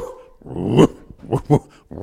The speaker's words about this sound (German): Kannst du mal bellen?